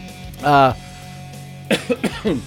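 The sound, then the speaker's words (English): A short voiced sound, then a quick run of several sharp coughs from someone who has just bitten their tongue. The coughs come in close, uneven bursts. “See, I bit my tongue and now I'm coughing.”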